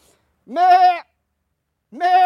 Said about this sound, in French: Mais voilà les chèvres qui accourent, des belles chèvres blanches.